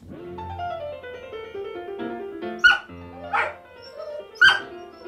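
A dog howls along to a record of a Mozart concerto for three pianos: piano notes play throughout, and three short, sharp, high howls or yelps break in over the second half.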